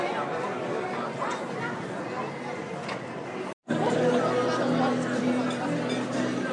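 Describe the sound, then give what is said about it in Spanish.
Steady ambient chatter fills a busy restaurant on a street packed with brasseries, pizzerias and seafood places: a dense murmur of many overlapping voices at an even level, cutting out briefly about midway before resuming. “y este es el sonido ambiente en el restaurante en el que me he parado”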